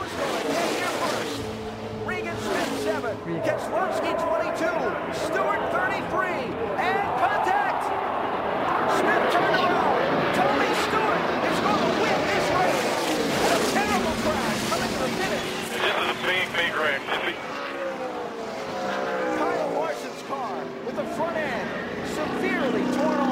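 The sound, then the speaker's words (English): Race cars roaring and crashing into the grandstand fence, heard as a sustained, loud din of engines and commotion with voices present throughout. “here's a little sound from that moment when all the cars started going into the grandstand.”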